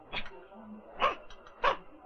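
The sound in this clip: A dog barks in three short, sharp yaps spaced evenly apart, fairly faint against a quiet background.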